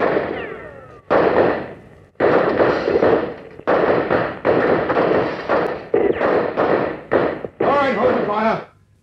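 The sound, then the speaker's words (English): Gunshots fired at a man fleeing into the bush come as a series of loud, sharp bursts of gunfire separated by short gaps. “Stop, O'Reilly, or we shoot! Get out! Yeah. All right, you men, he's over there. Let him have it.”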